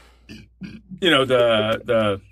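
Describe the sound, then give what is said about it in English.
A burp that slips out of a man mid-conversation, a loud, voiced croaking belch in two bursts, preceded by a few faint, softer throat sounds. “sorry, that was a burp that snuck out.”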